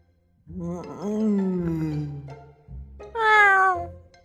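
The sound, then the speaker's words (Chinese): A white cat makes a long, low, groaning vocalization and then, after a brief pause, a short, louder and higher-pitched meow. “白猫眯着眼，眼盯着对面女孩看了好一会儿，才在一个长达5秒钟的巨大哈欠后醒过神来，不痛不痒地朝吴阳喵了一声。”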